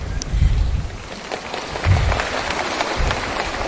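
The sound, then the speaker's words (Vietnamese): An audience at a Buddhist talk on overcoming illness applauds with a steady, moderate patter of many clapping hands. “Hình như các vị thích vỗ tay, tôi cũng thích nghe vỗ tay nữa.”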